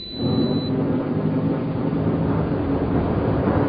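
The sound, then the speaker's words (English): Spacecraft shuttle's engine braking burn, a dense, steady roaring rumble that holds at an even loudness for nearly four seconds, with no voices. “Seat restraints for atmospheric entry after the first braking burn. Braking burn 5 seconds from now.”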